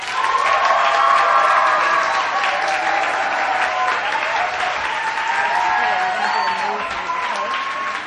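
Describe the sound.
Loud, sustained applause with some cheering and whoops as a church audience welcomes a student speaker. The clapping stays thick and even throughout, easing slightly toward the end.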